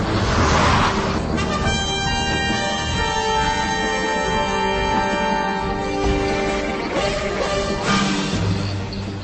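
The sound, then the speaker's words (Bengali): A car travels along an open road at night amid loud, overlapping horn blasts that sound almost continuously over a steady engine and road rumble. “জ্ঞান হবার পর প্রথম শুনতে পেল গাড়ির শব্দ।”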